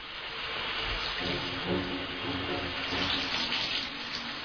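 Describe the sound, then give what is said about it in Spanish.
A shower runs with a continuous, fairly faint hiss of spraying water that stays steady throughout, with no voices. “Ella se está duchando”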